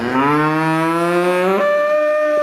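A cow on a dairy farm lets out one long, loud, low moo, its harmonic-rich tone rising gradually in pitch as it continues.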